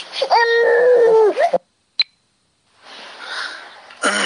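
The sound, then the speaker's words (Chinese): A child cries in one sustained, tonal wail lasting over a second. It breaks off abruptly and is followed by a sharp click, a short silence, and then soft breathy noise. “不哭啊，没事啊。”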